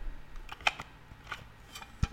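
Plastic cassette tape case being opened to reach a bright orange tape: a few faint, sharp clicks and snaps spread out over quiet handling noise.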